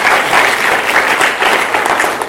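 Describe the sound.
Audience clapping for speakers at a gathering, a loud, thick wash of many hands beating together, steady and sustained for a couple of seconds with no talk over it.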